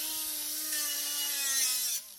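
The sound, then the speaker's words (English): Welding on an aluminum wheelchair frame in a machine shop gives a steady, buzzing mechanical whine with bright hiss, holding at an even level before cutting off abruptly near the end. “It's a Saturday afternoon at Southbridge Tool and Manufacturing in Dudley. A welder is working on an aluminum wheelchair frame.”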